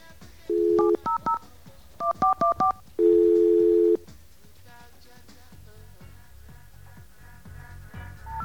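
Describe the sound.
Touch-tone telephone keys beep as a number is dialed: a few short tones, then a quicker run of several more, followed by one longer steady tone. A faint hum carries on afterward.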